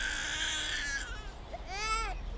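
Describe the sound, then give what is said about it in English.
A baby wails beyond a way-out door near a queue. A high, strained cry is followed by a long wail that arches up and back down near the end, fairly faint over background noise. “What's that? A wild baby wailing through the way out door, or Satan himself?”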